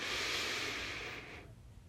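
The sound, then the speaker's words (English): A single long inhaled breath taken during a guided breathing prayer: a steady, airy hiss that holds for about a second and a half, then fades out, with no talk. “Inhale.”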